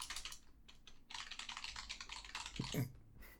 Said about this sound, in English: every man got the loudest, clackiest keyboard you've ever heard.